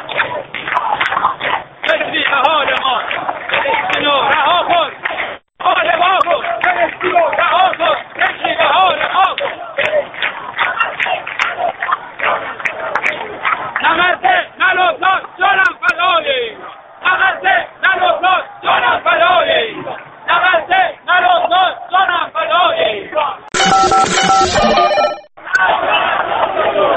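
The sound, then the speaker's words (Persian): A protest crowd on Karim Khan bridge in Tehran chants in loud rhythmic unison, the chanting sustained with brief gaps between phrases. “این صدای واقعی ملت ایرانه. من الان رو پل کریم خان هستم.”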